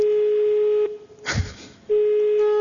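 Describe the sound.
Telephone sounds as a number is dialed: a steady line tone stops, a short noisy burst follows, then the same tone resumes.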